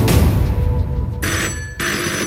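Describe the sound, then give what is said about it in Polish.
A telephone rings on a child and youth crisis helpline, a bright electronic ringtone in short repeated bursts over a low rumbling background, with no voices. “To nie jest zwykły dzwonek, to wołanie o pomoc.”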